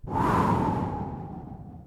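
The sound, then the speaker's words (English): A breath blown out through the mouth like the sound of wind during a children's breathing exercise: one long, breathy whoosh that starts abruptly and then slowly thins and fades over about two seconds. “When you breathe in through your nose, it will sound like this. And when you breathe out, you can blow the air out of your mouth like the sound of the wind.”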